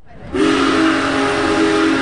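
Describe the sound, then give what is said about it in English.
Union Pacific's Big Boy No. 4014, the world's largest operating steam locomotive, sounds its whistle on a stop in Pottstown. A loud, chordal blast comes in abruptly and is held steady for nearly two seconds. “The world's largest operating steam train made a stop in Pottstown late Thursday night.”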